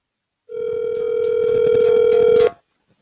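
A phone's ringback tone sounds on an outgoing call that is expected to reach voicemail: one steady, unbroken electronic tone lasting about two seconds, starting abruptly and cutting off cleanly, with no talk over it.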